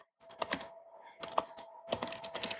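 Rapid keystrokes clatter on a computer keyboard in three short bursts separated by brief pauses, crisp and moderately loud with no voices.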